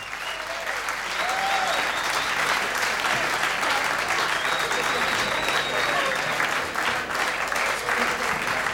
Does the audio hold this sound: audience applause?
yes